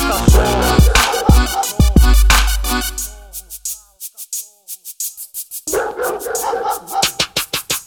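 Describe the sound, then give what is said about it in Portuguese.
Dogs bark in sharp, repeated bursts over a heavy, bass-driven hip-hop beat. The music briefly thins out midway, then the barking and beat return together. “Vou soltar os cachorros. Soltar os cachorros. Vou soltar os cachorros.”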